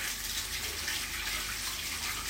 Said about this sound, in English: You have to wait for the hot water to come up.